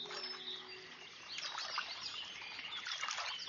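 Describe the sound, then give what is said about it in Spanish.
Cranes call in a swamp alongside brighter bird chirps. Low, trumpeting tones sound early on, then quick, high twittering notes cluster in the second half over a faint, hissy background. “En el pantano, las grullas están muy ocupadas.”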